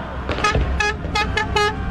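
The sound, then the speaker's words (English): Car horns honk in a street celebration of a World Cup win in Madrid, with many short, overlapping toots over a steady rumble of traffic. “A cacophony of car horns and firecrackers on the streets of Madrid, Spain”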